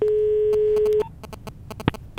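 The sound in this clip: A steady ringing tone from an outgoing telephone call holds a single pitch for about a second, then cuts off and is followed by several faint, scattered clicks.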